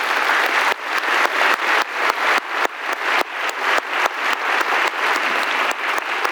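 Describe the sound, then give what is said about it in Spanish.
Steady audience applause at a convention's opening ceremony: many hands clapping in a dense, continuous patter that holds an even, fairly loud level throughout, with no voices over it. “Démosles un gran aplauso, por favor.”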